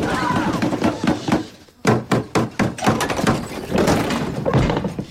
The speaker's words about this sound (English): bangs on the bus door.